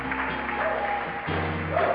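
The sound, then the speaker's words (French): An audience applauding during a church service. A steady wash of clapping runs throughout, with sustained musical tones underneath. “Est-ce que vous pouvez acclamer”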